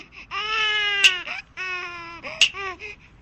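A newborn baby cries in two long, loud wailing bursts, each with a sharp shrill peak and a brief gap between them.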